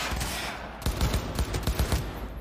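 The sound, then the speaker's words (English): Rapid automatic gunfire from a shooter video game, a dense burst of quick cracking shots starting partway through over constant background noise, with no voices. “Pretty standard stuff as far as the shooting goes”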